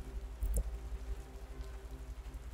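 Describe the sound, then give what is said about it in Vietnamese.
Heavy rain falls on a gloomy, overcast night as a steady, faint hiss and patter with a low hum beneath, one brief thump near the start, and no voices. “Thời tiết u ám cộng với mây mưa có phần nặng hạt”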